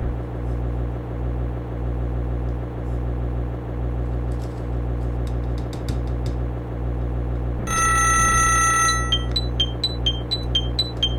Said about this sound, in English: Phone.